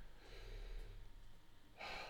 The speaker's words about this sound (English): Whew, breathe in.